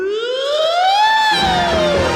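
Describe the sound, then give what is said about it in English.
A loud siren wail climbs steadily in pitch, then slowly sinks again in one long, smooth sweep that stands alone. “When I hear the siren blow”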